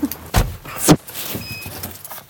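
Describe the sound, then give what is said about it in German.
Two heavy clunks of vehicle doors shutting as people climb into a police van, the first near the start and the second about half a second later, with a quieter rattle and rustle trailing after. “Wir sind also in den Polizeibus gestiegen”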